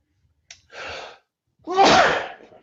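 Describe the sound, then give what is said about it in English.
A single loud human sneeze with a quick intake of breath just before it, heard alone in an otherwise quiet moment. “sweet sneeze”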